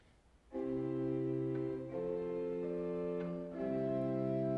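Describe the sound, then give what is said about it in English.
A pipe organ spire flute, a hybrid stop that is half flute and half string, sounds three held notes one after another, each a steady tone that is rich in overtones and slightly string-like, with no other sounds. “So here's the spire flute, which is a hybrid stop.”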